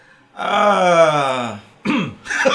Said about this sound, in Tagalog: So, direct, nag-clear na ng ano, ng lalamunan. Handa na yan.